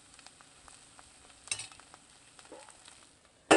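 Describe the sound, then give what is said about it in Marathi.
Fenugreek leaves being stirred and sautéed in a pan: soft scrapes and clicks of a utensil over a faint sizzle, a few sharper scrapes, and a loud scrape at the end, with no talk. “मेथी व्यवस्थित वरखाली परतून घ्यायची आहे। मेथी व्यवस्थित परतून झाली की आपण ती 5 मिनिटं वाफेवर शिजवायची आहे।”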